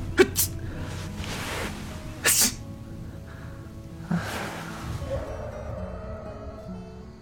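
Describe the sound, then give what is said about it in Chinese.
A drunk passenger slumped in a car's back seat gives a short, sharp sneeze as cold wind blows in through the window. A few other brief breathy bursts are scattered around it against a quiet background. “寒凉的风透过车窗呼呼地灌了进来，把歪斜在后座上的醉醺醺的人冻得打了个喷嚏。”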